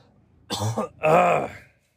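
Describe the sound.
Throat clearing from someone with something caught in the throat: two harsh, raspy bursts in quick succession, the second louder and longer, with no talk.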